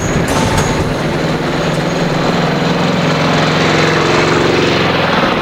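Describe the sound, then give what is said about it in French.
City street noise outside a metro station forms a loud, continuous mechanical rumble with a steady droning hum that never lets up, with no voices. “Le bruit de la rue les surprennent.”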